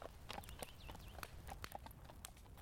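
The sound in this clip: Several horses ride away at a walk, their hooves making a faint, irregular clip-clop of many overlapping steps.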